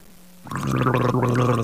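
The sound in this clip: Loud, continuous gargling with a bubbling, watery rattle starts abruptly after a brief quiet moment and holds steady to the end.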